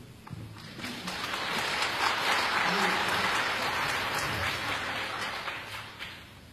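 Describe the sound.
An audience applauds to welcome singers onto the stage at a concert. The clapping is dense and steady, swelling quickly, holding at full strength, then tapering off at the end.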